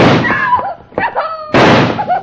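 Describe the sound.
A gunshot in a radio drama: a sharp, loud bang bursts out amid tense, shouting voices.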